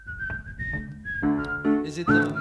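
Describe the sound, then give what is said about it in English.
A person whistles a solo tune, a clear melody that shifts pitch from note to note over a steady harmonic backing that enters partway through. “Like a real whistling solo, because it is a bit much if it's those joke whistlings.”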